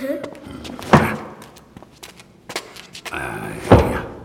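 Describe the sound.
Knuckles knocking on a wooden cask of aging spirits to judge its fill level by tone: two heavy, dull, hollow thuds stand out a few seconds apart, with quieter rustling and small knocks between.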